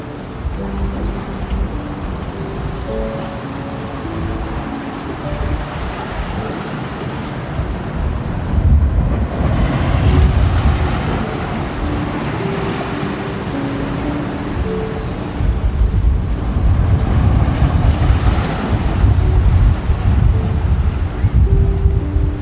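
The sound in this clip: Ocean surf washes in as steady, broad rushing noise, swelling louder around the middle and again through the final stretch, with soft sustained musical tones held underneath.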